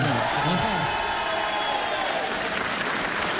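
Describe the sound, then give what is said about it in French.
Crowd of spectators applauding at a lively morning gathering, a dense, steady wash of clapping that stays loud and even throughout. “en plus les gens sont nombreux ce matin, c'est super, franchement c'est bien. Et attendez, et un public du tonnerre, écoutez plutôt.”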